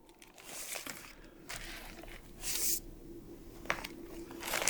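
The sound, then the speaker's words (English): Pages of a Bible being turned, a few papery rustles and crinkles that come in short bursts and then fade, fairly faint and with no voices. “Now, I'm just turning pages. Hang in here with me.”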